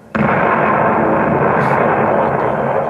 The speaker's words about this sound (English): A devastating blast recreated by FBI technicians to show the destructive power of the explosives concealed in the young man's underwear.